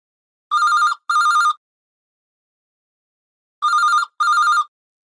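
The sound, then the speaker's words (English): A telephone rings loudly on its own: two rings, each a pair of short bright bell bursts, separated by a silent pause. “The phone rings.”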